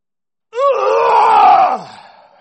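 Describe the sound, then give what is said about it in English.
A voice imitating a deep grunting groan from the depths of a person: one loud, sustained moan lasting about a second, cutting off and then trailing into a faint tail. “It was truly a grunt, a groan. It was coming from the depths of a being.”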